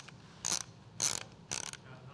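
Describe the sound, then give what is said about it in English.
Ratcheting clicks of a Kodak disposable camera's film wheel being wound for the next shot, heard as three short, crisp bursts of rapid clicking spaced evenly apart. “she used the Kodak brand. That was the brand of disposable camera that she bought. And I loved to wind the camera for the next shot.”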